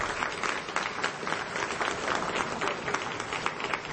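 Steady audience applause during a live music performance, dense continuous clapping at an even, moderate level for the whole stretch.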